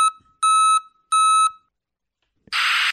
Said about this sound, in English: It's supposed to reduce noise pollution. And they claim you'll still hear it if you're behind the truck. They're just worried that people might not associate the new sound with the truck backing up.